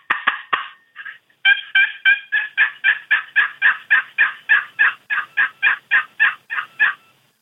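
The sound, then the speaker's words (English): Turkey yelps played on a cedar box call: a quick run of three rasping, high yelps, a faint short note, then a long, evenly paced series of many loud yelps in steady rhythm, with no talking. “it's a cedar box, and I'll just run some yelps on it”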